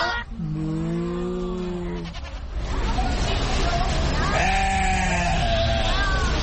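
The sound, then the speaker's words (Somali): Two long, wavering bleats come from sheep, each lasting around two seconds, separated by a pause. A steady low rumble runs underneath throughout. “neefka halkaa taagan ee laxda ah ee wixii maxaad af Ingiriisi ahaan ugu yeertaan? In English they are called sheep. Soomaali ahaanna waxay noqonaysaa ido.”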